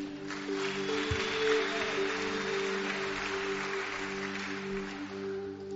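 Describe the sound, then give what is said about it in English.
Applause from a church audience welcoming a guest at a testimony, worship and baptism service: steady, dense clapping at moderate level over a low constant hum. “So I just want to welcome our first guest, Daniel Duplessis. Let's give him a hand.”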